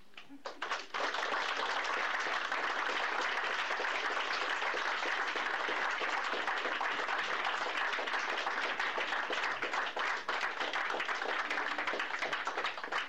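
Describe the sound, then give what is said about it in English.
An audience bursts into applause after a reading, a dense, sustained wash of many hands clapping that starts abruptly and continues steadily at full strength. “Can we clap one more time for Phil?”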